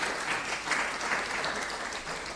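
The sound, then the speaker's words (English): Applause for a retiring teacher who spent 17 years at one school and 44 years working with children: a steady, even round of clapping from a gathering, sustained throughout with a slight swell partway through. “I think that's worth a round of applause, isn't it?”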